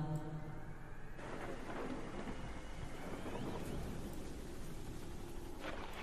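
Heavy rain pours in a storm as a steady, loud, dense roar across the whole clip, with a low thunder-like rumble beneath it.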